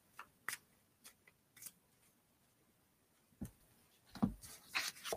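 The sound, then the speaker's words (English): Cards being pulled from a deck: a series of faint, short papery slides and flicks scattered across the stretch, sparse at first and growing busier and louder near the end. “I'll just pull some random cards”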